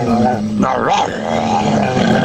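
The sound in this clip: A voice imitates a barking dog with rough, growling yelps. The pitch sweeps in the middle, and the sound stays loud and continuous throughout.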